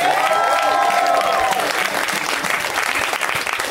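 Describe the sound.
An audience applauds a comic at a stand-up show, a dense, steady wash of clapping that holds at an even level throughout.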